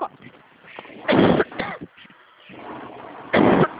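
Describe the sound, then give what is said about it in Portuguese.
A person coughs after choking on saliva: two sharp, loud coughing bursts separated by quieter throat sounds and breathing. “Ai, desculpa, engasguei com a saliva.”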